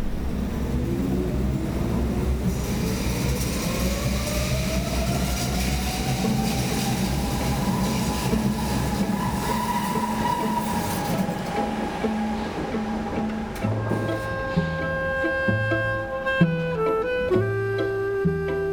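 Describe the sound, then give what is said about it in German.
An underground U-Bahn train ride in Berlin: a steady, loud rumble of wheels and carriage under an electric motor whine that climbs in pitch and then holds, with no voices heard. “Und das machen wir jetzt mal direkt und schnappen uns hier eine U und fahren zurück zu unserem Ausgangspunkt.”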